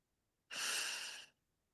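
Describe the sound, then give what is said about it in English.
One long, deep breath, soft and airy, rises sharply, holds for almost a second, then fades, with no voice. “let's just now take a moment to all take a very deep, healing, joyful breath together.”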